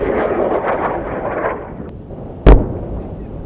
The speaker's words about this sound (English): they'll have a better understanding of how the steps in firing the TOW missile are conducted. At my command, fire.